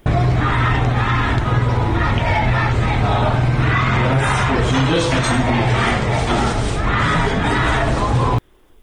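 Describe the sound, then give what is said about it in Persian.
Protesters crowd a street in Shiraz, chanting slogans with loud, dense shouting from many voices that carries on without a break for about eight seconds, then cuts off abruptly. “شیراز شاید بیشترین ویدیوها رو ما داریم که معترضان دارن شعار میدن و تعدادی از اونها هم بازداشت شدن. بشنویم با هم صدای رو از شیراز.”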